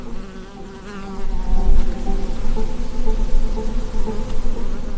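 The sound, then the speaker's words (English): Flying insects buzz in the Argentinian Patagonian desert, a steady, fairly loud drone with wavering hum tones that swells after the first second and stays dense throughout, with no voices. “The silence of the desert. It's eerily quiet. I mean, there's literally nothing going on apart from bugs flying.”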